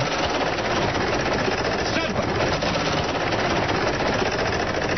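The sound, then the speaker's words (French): Rapid, dense clicking of a prize wheel spun during a radio game, a steady rattle that runs evenly through the whole clip without pause. “d'abord tu fais tourner la roue.”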